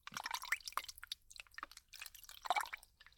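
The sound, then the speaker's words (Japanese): Wet splashing as water rinses foam off a face: quiet, irregular bursts of splashes, drips and squishy sounds separated by brief pauses. “泡を顔に塗り広げて、はい、じゃあ洗うよ。”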